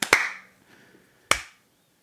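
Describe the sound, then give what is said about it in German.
A few sharp hand claps given as applause: a quick pair at the very start, then a single clap after a pause of about a second, with only faint sound in between. “Kriege ich auch einen Applaus ein bisschen?”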